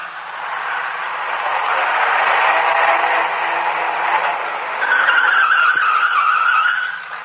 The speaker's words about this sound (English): I grabbed the wheel in the nick of time. We almost dropped off an incline. I pulled to the side and shut the motor.